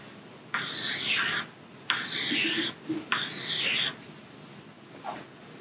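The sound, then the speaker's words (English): Marker or chalk drawing on a board: three long rasping strokes of about a second each, with a couple of small taps between the second and third, then a faint brief scrape. “Well, first of all, we're going to draw a few of them.”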